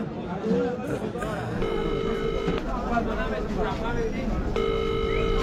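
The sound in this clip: A telephone call being dialed and then ringing, with two ringing tones standing out from busy background noise and voices.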